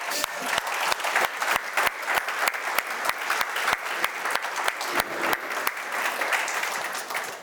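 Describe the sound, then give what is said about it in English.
A church audience applauds to welcome its life group leaders. Brisk, dense clapping runs steadily throughout, with sharp individual claps standing out over a continuous wash of hands. “We want to welcome our life group leaders. Give all of them a hand.”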